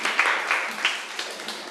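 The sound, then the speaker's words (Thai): Classroom applause as students clap for a classmate who answered correctly, a short burst of many overlapping claps, fairly loud, with a few sharper claps standing out as it slowly fades. “ปรบมือให้เพื่อนหน่อย”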